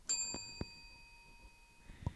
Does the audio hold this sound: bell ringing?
yes